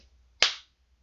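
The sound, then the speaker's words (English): A slap to the face, one sharp, crisp smack that bursts out and fades quickly into silence. “I love slapping your face.”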